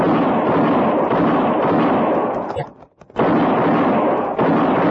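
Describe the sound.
Gunfire in a western radio drama: a dense, loud roar of sustained shooting that cuts out briefly near the middle, then bursts back in at full strength.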